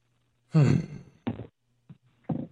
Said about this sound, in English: This is getting ridiculous. I can't even start a sentence without yawning.